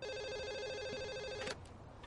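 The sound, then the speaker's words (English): A telephone rings on an incoming call, a steady electronic trill with bright, layered tones that ends abruptly after about one and a half seconds, followed by a short click and quiet. “The phone. But who can I call?”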